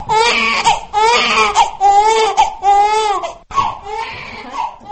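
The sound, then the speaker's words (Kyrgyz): A newborn baby cries in loud, repeated wailing bursts, each strained and high-pitched with short catches of breath between them. No other voices are present. “Мына ошентип мен келдим деп жар салып, ыңалап жарык дүйнөгө келген баланын”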